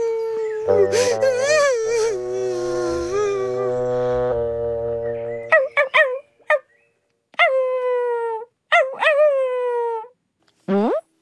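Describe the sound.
A dog crying: one long, wavering, high howl, then a run of short, sharp whimpers and whines separated by brief silences.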